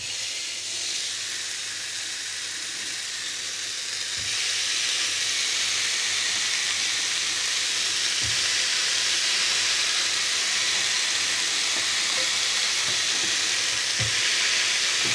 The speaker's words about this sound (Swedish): Nu öppnar jag då locket och så ska vi försöka lägga på de här burgarna.